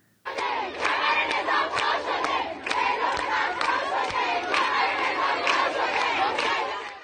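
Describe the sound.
Female students chant slogans against the government in a university dormitory courtyard in Isfahan early on a Wednesday morning. Many voices shout together, loud and rhythmic, with sharp regular accents that continue throughout.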